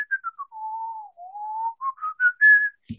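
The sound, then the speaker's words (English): A woman whistles a short, wandering tune as she grabs bowls to serve stew. The clear whistle is heard alone, with many notes that dip low and then climb higher toward the end. “she grabs the bowls and you hear her just kind of whistle a bit,”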